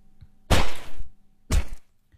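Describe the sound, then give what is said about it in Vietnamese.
Stick striking a dog with blows: two dull, heavy thwacks about a second apart, each followed by a brief rumbling tail, with quiet between them. “thế mà thầy cầm cái gậy, thầy giáng đánh đột một phát.”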